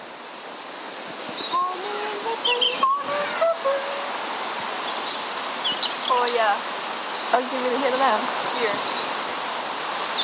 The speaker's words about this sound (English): Well, probably a blackbird. They sing beautifully.